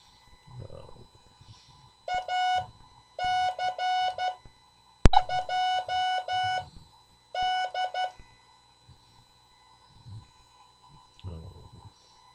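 Morse code tones sending an amateur radio callsign during a CW class, a steady beeping tone keyed into four bursts of short and long elements separated by quiet gaps.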